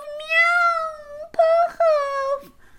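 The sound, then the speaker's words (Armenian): A voice imitates cats meowing with three whiny, high-pitched meows. The first is long and drawn out; the next two are shorter and come close together. “Միաու, միաու, միաու։ Մլավեցին նրանք։”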